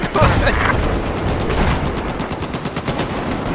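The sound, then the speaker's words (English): Rapid automatic gunfire in a video game battle, sustained bursts of sharp shots that stay loud and continuous throughout. “I know I'm getting shot at”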